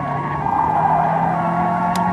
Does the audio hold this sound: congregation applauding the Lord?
no